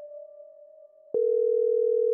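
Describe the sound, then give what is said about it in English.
A telephone dial tone hums steadily and alone while an emergency number is dialed. A sharp click breaks it midway, and then a louder, slightly lower continuous tone holds to the end. “With trembling hands, we dialed 911, urgently calling for help.”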